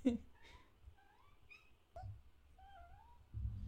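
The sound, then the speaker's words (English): A cat meowing a few times, faint, thin and slightly rising and falling in pitch, with soft rustling in between. “oh, that's my cat.”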